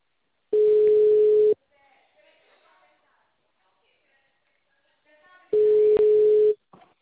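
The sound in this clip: Telephone tone while a call is placed: two steady one-second tone bursts separated by a long gap of near silence with faint line noise.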